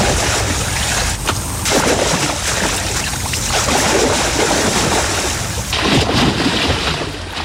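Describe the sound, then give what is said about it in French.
Sea waves wash and churn with a loud, continuous rushing roar that surges and eases, the sound of water at a bathing spot by the sea. “c'est la mer, c'est l'eau, c'est la baignade.”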